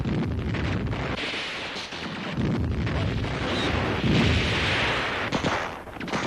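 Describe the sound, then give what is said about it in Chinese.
Sustained machine gun fire as enemy soldiers spray bullets at guerrillas they think are breaking out of a village encirclement: a loud, dense, continuous crackle and rumble that runs for about six seconds with no talk. “后面的敌人以为被包围的游击队要突围，就一个劲儿用机枪扫射。”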